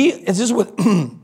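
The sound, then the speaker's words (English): A man clears his throat in a few short, raspy voiced bursts, heard alone without surrounding talk. “Clearing my throat. Sorry.”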